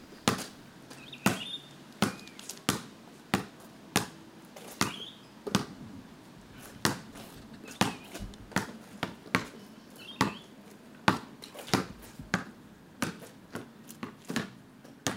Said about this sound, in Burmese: လီရာကသူ့အိမ်ပြင်ပမှာဘတ်စကတ်ဘောကိုပုတ်ကစားနေပါတယ်။